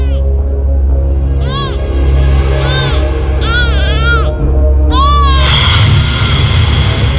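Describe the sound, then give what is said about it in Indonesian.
A newborn baby cries under a banana tree in a series of high, arching wails, several cries rising and falling over a steady low hum. “Suara tangis bayi itu sungguh menyayat hati.”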